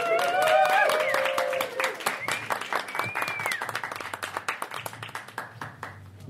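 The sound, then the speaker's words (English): Audience applause at a live show, starting after a brief voice and swelling into dense clapping with many overlapping hand claps that continue steadily to the end. “I think the audience is having a good time. Pretty confident, but it's nice to hear the audience applauding.”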